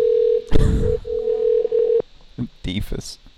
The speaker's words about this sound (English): Check that number. I think it's going to go to a voicemail.